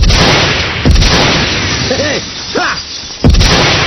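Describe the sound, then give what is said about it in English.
Gunfire shooting at a city of crystal towers: a few sharp, loud bursts stand out against a dense, noisy roar, with whistling tones sweeping through the middle. “A few bullets will fix all those crystal towers.”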